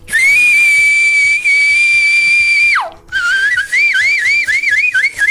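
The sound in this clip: Piercing whistling from a traditional cattle song: one long steady high note bends sharply downward, then gives way to rapid, undulating warbles, loud and alone without other voices.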